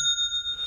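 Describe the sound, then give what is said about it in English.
An online store's sale notification chime: one bright bell-like ring that sustains evenly with a faint pulsing wobble, heard alone. “That's the sound of another sale on Shopify and the moment when another business dream becomes reality.”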